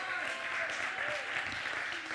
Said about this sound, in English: Give the Lord a hand clap of praise before you sit down.